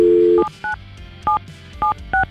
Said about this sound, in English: We have his phone number. We're going to call Thomas now